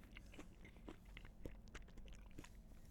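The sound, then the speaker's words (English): Crunchy bites and wet chewing of a fresh peach, many small crisp crunches at an uneven rhythm, faint and with no talk. “I really don't be eating peaches like this. But this peaches is a good time, man. I don't know if y'all can hear that in the mic.”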